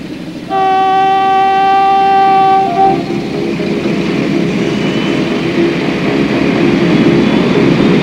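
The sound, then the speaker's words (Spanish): A train starting to move sounds a steady, loud horn blast of about two and a half seconds, followed by a continuous heavy rumble that carries on to the end. “El tren se pone en marcha.”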